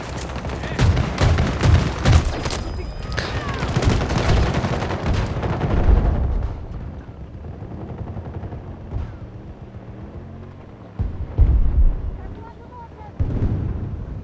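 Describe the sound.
Video-game gunfire while a player struggles with a long-range gun: loud, rapid bursts of shots pack the first several seconds. The firing then drops to a quieter level, and a couple of sudden bursts flare up again near the end.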